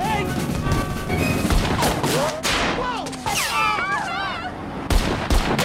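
Gunfire as a car tire is shot out, while the car skids to a halt. Loud, sharp shots ring through a dense, busy mix of other sounds that lasts the whole clip.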